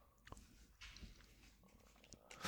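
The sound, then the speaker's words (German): Chewing liquorice, with soft irregular mouth sounds and faint crunches spread across the moment, all very quiet. “Genau, was bedeutet, ich muss aufhören, Lakritze zu essen.”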